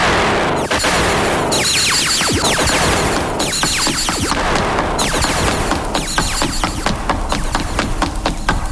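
Heavy, sustained gunfire, with many rapid shots cracking and booming one after another for nearly nine seconds, loud throughout and without voices.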